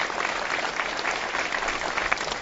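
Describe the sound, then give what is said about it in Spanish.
Dense, steady applause from dozens of neighbours, friends and relatives, breaking a midday minute of silence held in memory of a local young man; the clapping is sustained and even, with no voices over it. “Os aplausos rachaban o minuto de silencio que ducias de veciños, amigos e familiares gardaban este mediodía na memoria de Nicolás”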